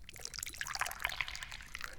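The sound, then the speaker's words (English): Dahong Pao tea pours into a cup as a soft, steady liquid trickle with faint bubbling, quiet and continuous for a couple of seconds. “And what kind of tea am I drinking today? Dahong Pao. Oh, let's pour some more.”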